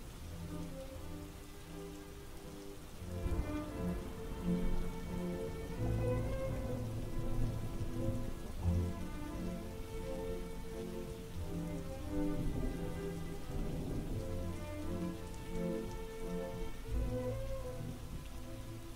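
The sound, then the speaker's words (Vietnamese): Heavy jungle rain pours down hard enough to flood a village, a steady, dense hiss and patter that holds unbroken and fairly loud for the whole stretch with no voices. “Cơn mưa rừng tầm tã khiến cho Châu Văn Bản chìm trong nước.”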